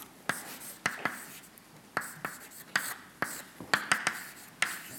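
A mathematical equation is written by hand in quick, faint strokes, many short sharp taps and scratches in an uneven rhythm with brief pauses between bursts.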